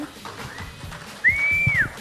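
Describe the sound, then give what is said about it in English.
An audience member at a comic convention panel whistles once, a short, fairly high tone that rises, holds for about half a second, then drops away, over low background noise. “That's the spirit. Whoever whistled makes me feel alive.”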